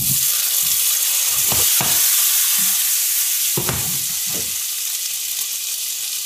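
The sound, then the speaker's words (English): Chopped tomatoes sizzle in a pan with garlic, a steady bright hiss running throughout, punctuated by a few low knocks and scrapes of stirring. “So I'm just going to put all these chopped up tomatoes into the pan with the garlic.”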